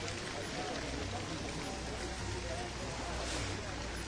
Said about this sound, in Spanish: Y como escuchan de fondo, las fuentes, el agua, nada más su sonido ya refresca el ambiente.